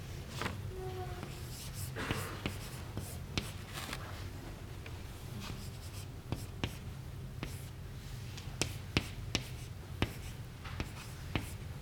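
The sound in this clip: An equation is written by hand with many short, scratchy strokes and light taps in an uneven rhythm. The strokes are faint over a steady low background hum.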